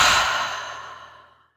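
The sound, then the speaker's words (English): A deep breath out through the mouth during a guided mindfulness breathing exercise, one long sighing exhale that begins strong and gradually fades away, with no talking. “take a deep breath in through the nose and out through the mouth.”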